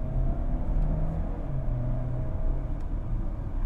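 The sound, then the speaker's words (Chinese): Engine rumble from a VW Tiguan 280 TSI Elegance as the driver presses the throttle hard to accelerate. A steady, dense low roar continues throughout, with no talk. “那我们待会来试一下，如果你大脚油门下去的话，它的反应会是如何？我们接下来，我们油门稍微重踩，”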